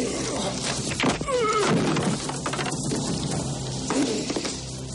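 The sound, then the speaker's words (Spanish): Blows and crashes from a fistfight in a 1991 action crime film. A few dull thuds and sharp smacks land amid scuffling noise, with a louder cluster of hits near the start and another impact toward the end. “Dino lucha ágilmente contra Richie, esquivando todos los golpes que intenta darle y propinándole una soberana paliza.”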